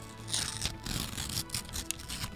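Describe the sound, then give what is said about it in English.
A delicate ripping sound at an award announcement: a thin, papery tear with faint scratchy crackle, quiet and drawn out over a couple of seconds. “Delicate rip there.”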